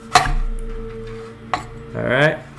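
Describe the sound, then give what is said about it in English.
A knife cuts a lemon slice into quarters, giving two sharp, crisp cutting knocks separated by more than a second of quiet. “All right, so all I did was just cut a slice and cut it in fours.”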